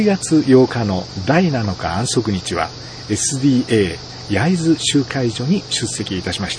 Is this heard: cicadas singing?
yes